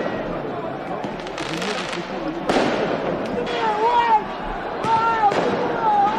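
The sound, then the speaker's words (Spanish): Fireworks and firecrackers go off during riots in France after Paris Saint-Germain won the Champions League final. A few sharp bangs and whistling rockets rise over a constant din of crowd voices. “El sonido de esos disturbios”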